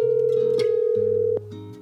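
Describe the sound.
A phone ringback tone plays while someone calls a person again: a steady, mid-pitched electronic tone with lower tones beneath it. It sounds alone, with no voices, and drops slightly in level near the end.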